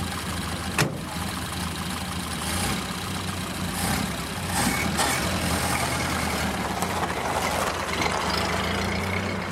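A Soviet official's car engine running steadily, a quiet low hum with a faint knocking rhythm. It stays unchanged throughout, broken by an occasional brief click.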